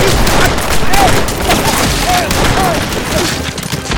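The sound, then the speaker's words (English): Dense gunfire fusillade from a Western shootout between bank robbers and a sheriff, with many overlapping shots crowding together into a loud, continuous volley for the whole clip. “The sheriff went down under a fusillade of bullets.”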